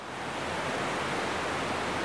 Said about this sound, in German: Die Maira fließt vom Maloja-Pass hinunter bis nach Italien.